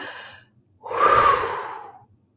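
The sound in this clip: Forceful whooshing exhale through the mouth during a breathing exercise, a loud breathy rush lasting about a second, preceded by a softer, shorter breath.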